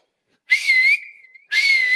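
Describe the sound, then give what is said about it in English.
A person whistles two bright, steady high notes, joined by a softer held tone that slides slightly upward between them. No one speaks. “He's whistling and he's saying,”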